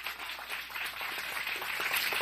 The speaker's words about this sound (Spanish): Dele el aplauso, no se quede con las ganas, hombre.